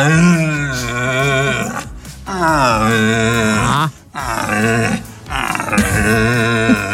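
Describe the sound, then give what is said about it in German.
A male red deer stag calls during the autumn rut, giving several long, deep, groaning roars with a rough harmonic tone. The calls are loud and separated by short pauses. “Aktuell jetzt mit den kühler werdenden Tagen setzt hier bei mir auch die Hirschbrunst ein. Also hört man auch mal die männlichen Hirsche eben, sag ich mal, rufen, um die Weibchen anzulocken.”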